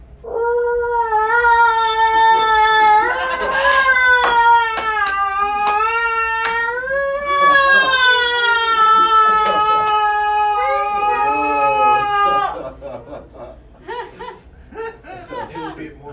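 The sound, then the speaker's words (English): A human voice imitates a female cat wailing in heat: a long, loud, wavering yowl held for about twelve seconds, followed by quieter laughter. “Female cats literally wail whenever they're turned on. Women? I think we should do the same, you know? Just whenever you see a guy you're interested in, just start wailing.”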